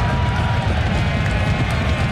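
Stadium crowd of soccer fans cheering at a Pittsburgh Riverhounds SC versus Rhode Island FC match, a continuous dense roar that stays steady throughout the short clip.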